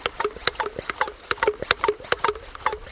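Hand pump of a spray bottle being worked before spraying down waders at a riverbank, a quick rhythmic series of squeaky plastic strokes, roughly four per second, fairly loud and alone.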